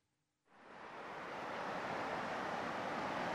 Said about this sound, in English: I'm here in Normandy, and that is the sound of the waves.